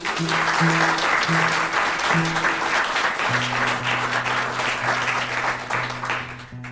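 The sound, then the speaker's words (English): Steady audience applause at a live music show greets a performer being introduced, with low, sustained instrument notes sounding through the clapping. “Put your hands together for Trent Wagler.”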